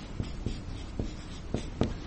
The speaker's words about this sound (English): Or allocate. Since I said allocate, let me just write down allocate.